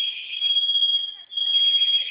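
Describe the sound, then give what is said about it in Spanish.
A shrill, high-pitched building alarm sounds continuously while it is being disarmed with a code, its steady electronic tone dipping briefly near the middle before resuming at full strength. “Se silenció una de las alarmas, ¿verdad? Sí, nada más una. Ok, esa que está sonando ahorita en un momento se va a silenciar.”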